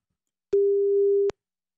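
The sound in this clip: A telephone ringing tone on an outgoing call: one clean, steady mid-pitched beep lasting under a second, alone between stretches of silence.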